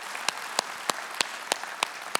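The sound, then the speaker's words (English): An audience applauding first-time guests. Seven sharp claps land in an even, steady rhythm over a continuous wash of crowd noise. “Can we give it up for all of our first-time guests today?”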